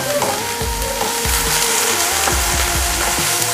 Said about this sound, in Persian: که نسوزن چیپسو، یعنی روغن و حرارت به صورت یک نواخت به همه جاشون برسه.